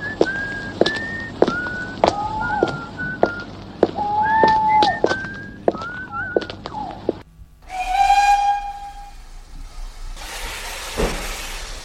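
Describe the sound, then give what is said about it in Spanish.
A train whistle signalling departure sounds as a sustained, harmonic steam-whistle blast, then a burst of hissing steam. Before it come sharp clicks and short whistled chirps. “me voy a ir para el tren que va a pitar su salida”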